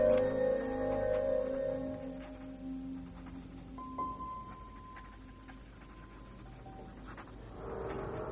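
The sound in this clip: Faint scratching of a pen gliding over paper as a writer works at a desk, soft and continuous beneath quiet sustained musical tones.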